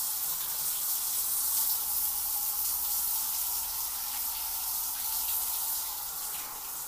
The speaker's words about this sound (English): Oh my gosh, I didn't even turn it all the way on. I was just washing it with cold water after waiting for this.